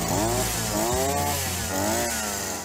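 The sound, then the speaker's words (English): A string trimmer's small engine drones loudly and alone in a buzzy, chainsaw-like whine, its pitch surging up and easing back down a couple of times. “There it is, the whippersnipper.”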